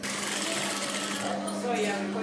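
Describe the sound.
An industrial sewing machine stitching a run of skirts drones in a steady, continuous whir with a constant hum, holding an even level throughout without pause.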